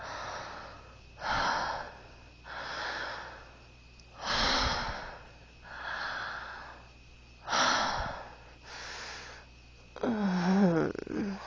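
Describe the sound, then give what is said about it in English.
Close, intimate breathing: a slow, even series of breathy exhalations repeating every second or so, with a louder, rougher breathy burst at the end. “Feeling me breathe against your pussy.”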